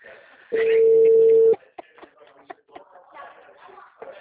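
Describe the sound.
One steady ringback tone sounds for about a second on an outgoing phone call, then gives way to faint clicks and soft rustling.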